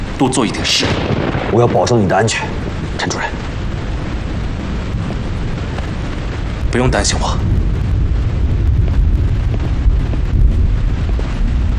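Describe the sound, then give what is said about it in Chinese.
A typhoon storm over Shanghai, with flooding and a burst embankment: loud, continuous roaring wind and rain fills the whole clip, and voices briefly speak over the noise. “潘副市长，刮台风了。”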